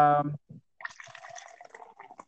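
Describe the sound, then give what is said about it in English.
Liquid is poured into a glass, heard as irregular light splashes and trickles after a brief voice, with small drips and gurgles scattered throughout. “That's the sound of deliciousness being poured. If it were just going into the glass, I would agree.”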